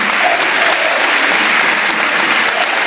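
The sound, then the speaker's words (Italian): A football stadium crowd applauds in relief after a player is hurt, a loud, continuous roar of many hands clapping that stays even from start to finish. “Applauso di sollievo del pubblico del Tardini per Piccoli”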